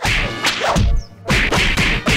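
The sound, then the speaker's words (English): Punch sound effects in a self-defense lesson: a few sharp whooshing swings and snapping thwacks in quick succession, loud and with no talk over them. “In self-defense, you want to deliver the first punch.”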